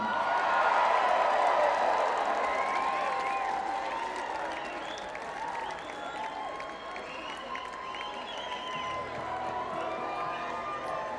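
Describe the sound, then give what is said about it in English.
An audience applauds and cheers as a singer is called onto the stage at a live music show, a steady, loud wash of clapping mixed with shouts and whoops that lasts the whole time. “We're gonna get a dear friend out here to sing a song with us right now. How about a hand for Miss Lindsay Liu?”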